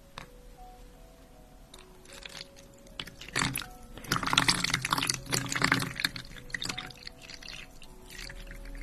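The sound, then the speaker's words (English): Sterile saline solution is poured in a whispered hospital checkup roleplay, building into a bubbling, splashing liquid flow with crinkly handling noises, then trailing off into softer drips and rustles. “So I'm just going to prepare some saline.”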